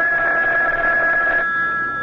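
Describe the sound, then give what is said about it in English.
A telephone ringing in a radio drama, a steady electric ring with sustained bright tones that carry on unbroken for about two seconds. “Oh, that's the phone, Parker.”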